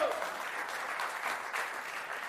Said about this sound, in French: On peut applaudir le Seigneur pour ça, si vous voulez bien.